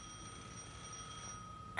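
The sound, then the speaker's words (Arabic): A doorbell rings in a home: a faint, steady bell-like tone holds for over a second and fades away, then a short, sharp, louder burst follows at the very end. “جرس الباب يا ماما”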